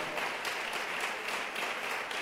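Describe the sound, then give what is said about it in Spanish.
A church audience applauds steadily in a dense, even wash of clapping that holds at a constant level without speech. “Démosle un aplauso al Señor en este día.”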